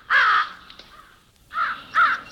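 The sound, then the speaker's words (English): Crow caws from a crow in Duluth: a few harsh, loud, rasping calls, one long caw followed after a gap by two shorter ones in quick succession, heard alone. “Here is a recording of a Duluth crow.”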